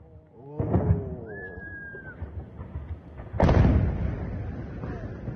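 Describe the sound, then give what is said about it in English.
Shelling and bombing explosions over areas of southern Lebanon: a high whistling tone, then a sudden loud blast that trails into a heavy, sustained rumble. “You see that video that you're looking at right there, that bombing, that shelling, shows Israelis targeting and bombing areas of southern Lebanon.”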